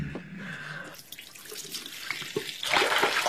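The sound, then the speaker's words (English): Water runs from a tap to fill a glass, a soft, steady hiss and trickle that swells louder and brighter near the end. “Just get me a glass of water. Yes, of course. Just a moment.”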